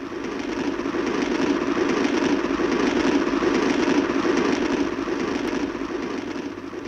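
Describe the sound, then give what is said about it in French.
A steady, even rumble of a train travelling toward Vienna on a December morning. The broad mechanical roar holds a constant level throughout, with no voices. “je me retrouvais dans le train qui devait me conduire à Vienne.”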